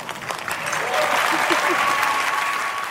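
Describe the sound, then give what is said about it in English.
Audience applause at the Academy Awards ceremony after an acceptance speech: dense clapping swells up within the first second, then holds steady and loud to the end. “A lot of people in the audience felt the need to cheer her on”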